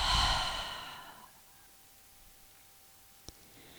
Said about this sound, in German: Und dann öffne deinen Mund, atme über die Lippen alles aus.